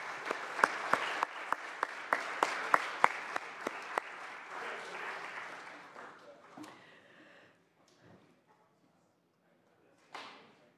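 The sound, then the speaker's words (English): Applause on a state senate floor welcoming two former senators: a dense round of clapping with sharp individual claps standing out, fading away after about seven seconds into near silence before one brief final burst. “Colleagues, if we could give a very nice warm welcome to Senators Rod Wright and Kevin Murray, who have joined us here on the floor today.”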